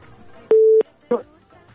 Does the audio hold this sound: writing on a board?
no